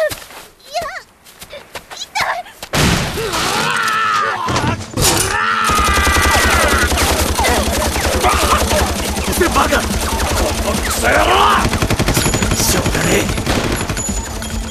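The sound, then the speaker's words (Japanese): Rapid automatic gunfire in a tense armed standoff starts after a few seconds and runs loud and continuous to the end. Voices are heard over the shooting. “だったら銃を捨てろ。 撃つな、マレフィケアに当たるぞ。”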